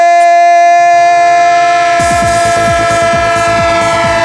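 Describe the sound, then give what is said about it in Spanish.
A train sound effect in a radio jingle: a loud, steady whistle-like tone, then a rhythmic chugging clatter joins about halfway and runs beneath it to the end. “¡El tren del Radio Estadio! El tren de Onda Cero, claro que sí. El tren que va a seguir pasando por esta sintonía”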